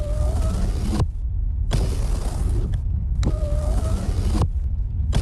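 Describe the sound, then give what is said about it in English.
A car's power windows whir up and down in three separate runs of motor whine, with short pauses between them. A steady low rumble continues underneath, and another run begins at the very end. “Oh, can you please just stop playing with the windows? I can't get the temperature right.”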